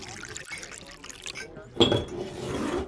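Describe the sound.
Beer poured into glasses: after a quiet stretch, a soft, steady stream of liquid starts partway through and runs with a gentle hiss and gurgle to the end.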